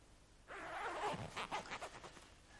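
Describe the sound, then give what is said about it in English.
A coat zipper is pulled up in one long, continuous zip that lasts about two seconds. The scratchy rasp is moderately loud and alone, with a few uneven catches toward the end. “So what I'm going to do is I'm going to put my coat on. And I'm going to zip up.”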